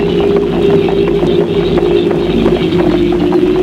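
Horse hooves clip-clopping as a rider arrives after a very long journey: a steady run of many fairly loud hoofbeats over a continuous low hum, with no talk.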